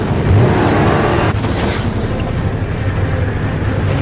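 An old motorcycle's engine drones through a video game cinematic, a steady, continuous rumble blended with rushing wind-like noise that holds at an even level throughout, with no talking.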